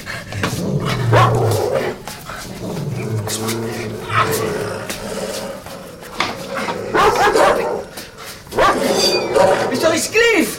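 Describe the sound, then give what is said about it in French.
Dogs bark and growl in a loud, snarling commotion that continues throughout, with shouting voices mixed over them. “Couchez les chiens !”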